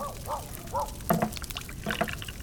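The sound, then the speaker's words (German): Stew with meat, peas and mushrooms is ladled into bowls with wet slopping and pouring sounds, broken by a few sharper knocks. “Ich fülle euch dann den Eintopf auf.”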